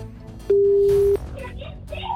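A steady electronic ringback tone sounds while someone calls a person on the phone: one loud, even-pitched beep lasting well over half a second, with quieter background noise before and after.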